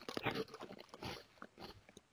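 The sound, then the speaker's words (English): Crunchy biting and chewing of a puffed snack shaped like little sausages, heard as a few quiet, irregular crackling bursts of mastication with no talking. “these little guys look like puff balls shaped like sausages. Let's see what they taste like.”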